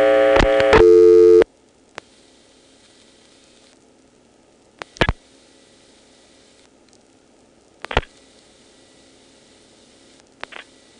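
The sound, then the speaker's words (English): Telephone exchange selector absorbing a dialed digit after the register sender is dropped and the call enters the 690 incoming: a loud burst of dial tones first, then a few sharp, isolated mechanical clicks over faint line hum. “To hear the sound, let's dial 49 to drop the register sender, then 0 to go into the 690 incoming, and then a 1 which will make that subtle absorbing sound.”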